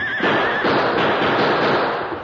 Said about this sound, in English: the masked man reined the great horse Silver into a spinning turn.